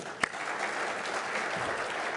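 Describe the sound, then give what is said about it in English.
Audience applause welcomes a guest: steady, moderately loud clapping from a crowd, with one sharp clap standing out near the start. “Please give him a round of welcome.”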